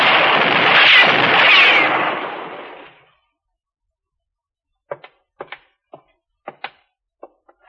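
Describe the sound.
Gunshots: a loud, broad roaring blast fades away over a few seconds, then after a pause several sharp, short cracks follow in an uneven sequence.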